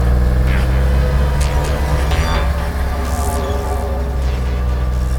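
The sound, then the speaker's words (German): A car engine roars as it speeds up during a chase: a loud, steady low rumble with brief whooshing swells above it. “Fahr schneller, Peter.”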